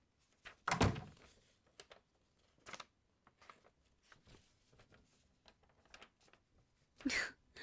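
A door being closed gives a loud, heavy thunk, then a stretch of faint scattered thuds and shuffling, and a second sharp thunk near the end.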